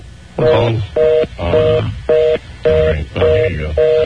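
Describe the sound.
Telephone keypad tones while dialing 1: short, steady two-note beeps repeat in a regular rhythm, alternating with a voice talking.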